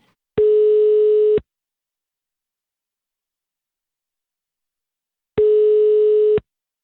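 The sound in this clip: Telephone line tones while a call is being placed: two steady beeps of the same pitch, each lasting about a second and about four seconds apart, with silence between and no voices.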